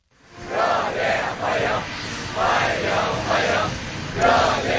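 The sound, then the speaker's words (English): Young people in Beijing chant in unison to welcome Russian leader Vladimir Putin, their loud shouted phrases repeating in a steady rhythm of rising and falling bursts. “Young people dressed in blue shirts and white trousers chanting and waving to welcome the Russian leader”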